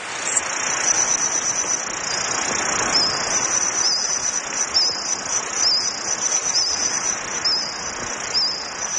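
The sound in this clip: A reconstructed Jurassic forest soundscape filled with insects: a steady, high-pitched cricket-like chirring runs throughout over a soft, constant hiss, with no voices.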